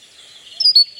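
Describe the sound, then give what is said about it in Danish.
Great tit song: two bright, high chirping notes rise out of faint hiss near the end of a very short moment. “det var nemlig musvitten her. Kunne I høre det? Den kommer igen. Og det er den sang, det her.”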